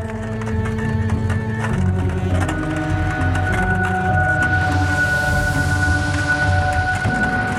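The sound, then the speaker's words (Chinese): Steady clip-clop of horse hooves as a horse pulls a carriage alone toward woods in a valley, a continuous rhythmic trotting beat carried over sustained tonal background sounds. “便驾着马车，独自前往城堡东边山谷上的树林”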